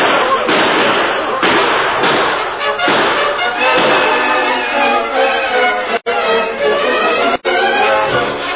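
Gunfire from a posse's guns: many overlapping shots with hard thudding cracks, forming a dense, loud barrage that runs almost without pause for several seconds.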